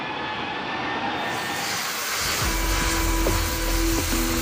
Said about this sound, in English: Sparks are flying all over the shipyard. Thousands of sheets are welded at the same time.